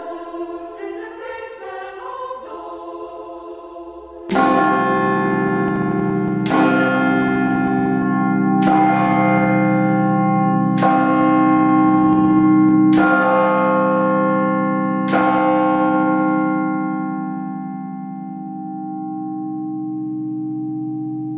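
Church bells rung by bell ringers on modern-cast bells: six heavy, resonant strikes at an even pace, each leaving a long humming tail that fades slowly at the end, after a few lighter chiming notes.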